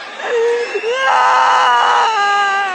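Loud, high-pitched crying with sustained wailing and sobbing that shifts in pitch, heard alone without talk.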